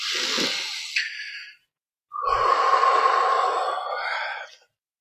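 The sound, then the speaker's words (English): Big, deep breaths taken during a tapping exercise, two long airy breaths each lasting over a second with a short pause between them, fairly loud and with no talk. “Tap on the side of the hand, take a nice big deep breath.”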